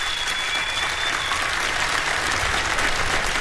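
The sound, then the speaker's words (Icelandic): Sustained applause from a concert audience for a musician at a birthday tribute concert in a Reykjavík concert hall. A dense, steady clatter of many clapping hands continues without a break at an even, fairly loud level. “klappið fyrir honum bara”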